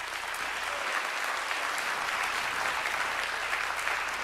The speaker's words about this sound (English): Can we give our Healing Encounters team a round of applause?